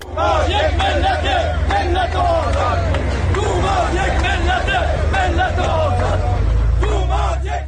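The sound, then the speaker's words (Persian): Retired social security pensioners chanting slogans in unison at a protest rally in Ahvaz over their living conditions, a loud, continuous mass of voices in rhythmic repeated phrases. “این صدای بازنشستگان تأمین اجتماعی است در اهواز که برای بهبود وضعیت معیشتی تجمع کرده بودند و در حمایت از توماج صالحی شعار سر دادند.”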